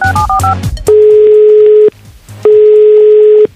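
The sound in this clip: Telephone tones of an outgoing call: a quick run of keypad dialing beeps, then two long, steady, loud ringing tones separated by a pause.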